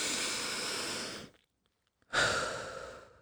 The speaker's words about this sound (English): take a nice deep breath